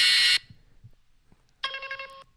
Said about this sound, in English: My buzzer sounds like this.